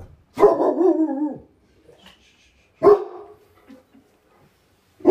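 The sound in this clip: Dog barking at someone arriving at a home: a loud, drawn-out bark, then a shorter, sharp bark followed by a few faint yips, with no talk.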